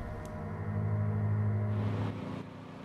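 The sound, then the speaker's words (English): A riding lawn mower engine drones along a quiet road as it rounds a bend and slows down. The hum is steady and low, swells slightly in the middle, then drops off toward the end with no voices. “Alvin steers his mower round a bend in a quiet road, decelerates and draws up alongside a silver fuel pump.”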